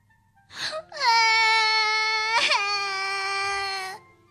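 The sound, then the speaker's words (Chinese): A child cries in one long, loud, high-pitched wail with a brief catch partway through, after a short sob at the start. “杰奇忍不住终于哭了出来”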